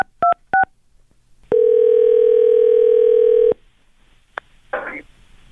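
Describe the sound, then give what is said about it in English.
Telephone dialing: two short keypad beeps, then a steady tone held for about two seconds before cutting off, followed by a single click and a brief rustle. “Let's just finish the dialing part here.”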